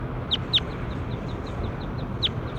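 A circling bird calls during a bird survey recording: three louder high, sharp chirps stand out over a faint series of softer repeated chirps and low steady background noise.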